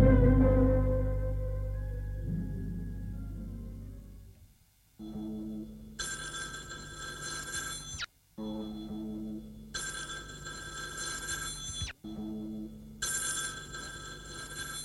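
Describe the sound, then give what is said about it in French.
A telephone rings in three long, bright, jangling bursts separated by short gaps; the last one is cut off. A low rumbling stretch comes before the first ring. “reçoit un appel téléphonique”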